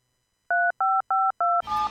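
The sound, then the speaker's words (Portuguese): Four evenly spaced telephone dialing tones, each a loud steady beep lasting about a fifth of a second. They are followed by the start of a noisier, different tone, with no talk. “A gente já estava encerrando o Guaxupé em Foco, mas a gente teve que dar uma parada urgente para atender um telefonema aqui”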